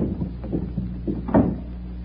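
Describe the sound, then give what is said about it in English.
A door opens onto a garden: a few soft knocks and rustles, then one louder thud near the end. “This door leads to the garden. Now, follow me.”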